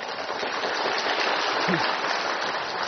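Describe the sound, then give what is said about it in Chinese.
An audience clapping during a spiritual teacher's talk, a dense, steady patter of many hands that sounds almost like rain, even in loudness throughout. “我不是要你们拍手的，我只要问你们啊”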